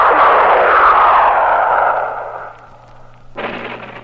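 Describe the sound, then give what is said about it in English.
A flare shot into the sky over a city makes a loud rushing whoosh that fades over about two seconds above a steady low hum, then a second burst of noise rises near the end. “With the sudden fury of a thunderbolt, a flare is shot into the sky over Central City.”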